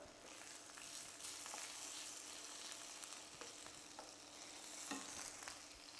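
Sausages sizzle and crackle in a frying pan, a steady hiss of hot fat with scattered small pops and spits that carries on evenly throughout.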